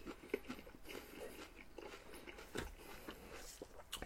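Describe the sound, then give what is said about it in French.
Crisp crunches of a woman biting into a pear-apple, a few faint sharp bites followed by quiet chewing. “On a le crisp, vous l'avez entendu.”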